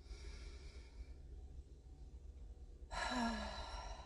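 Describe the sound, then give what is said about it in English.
A single deep breath rushes in suddenly as a loud, airy sigh near the end, following a stretch of faint steady background noise. “Last breath, guys.”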